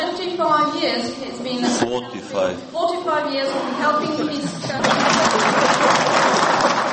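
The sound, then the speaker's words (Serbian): Student applause for Serbian president Tomislav Nikolić breaks out after a stretch of talk, a dense, steady wash of clapping that fills the final couple of seconds. “Da, aplauz za Tomislava Nikolića koji je korigovao prevodioca.”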